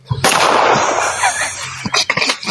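Pistol gunfire: one sharp, loud blast opens into a sustained, noisy roar, followed near the end by a few quick, sharp cracks.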